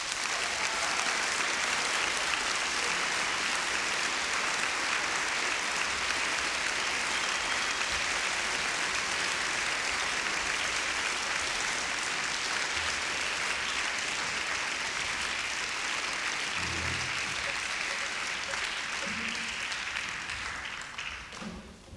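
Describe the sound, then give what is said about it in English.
Audience applause welcoming the Irish Week staff, a full, sustained burst of clapping from a crowd that stays loud and even, easing off slightly at the very end. “This is Irish Week, and here is a staff of our entire Irish Week class. Please welcome them here.”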